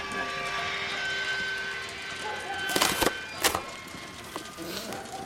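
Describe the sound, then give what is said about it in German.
A mine cart loaded high with sacks rolls down a slope on rails, its brake shoes giving off sustained squealing tones over a rumbling run, then a few sharp, woody clattering knocks. “als eine Lore, hoch mit Säcken beladen, den Hang herabgerollt kommt. Die Hemmschuhe kreischen.”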